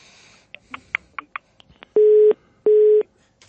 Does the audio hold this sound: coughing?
no